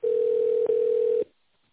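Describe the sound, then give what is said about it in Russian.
A telephone ringing tone plays while a call is transferred. A single steady, mid-pitched electronic beep lasts just over a second, with a tiny break in the middle, then cuts off to near silence. “Вызов переводится на секретаря.”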